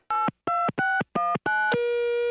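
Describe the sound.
Telephone keypad tones as a number is dialled: five short beeps of differing pitch in quick succession, followed by a longer steady tone.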